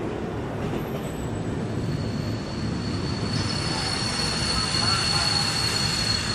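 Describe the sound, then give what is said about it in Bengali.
A night train pulling into a station: a steady, loud rumble of wheels on rails, joined partway through by thin, high wheel squeals that hold to the end, with faint voices. “রাত আটটা নাগাদ ট্রেনটা কোনো একটা স্টেশনে এসে থামল”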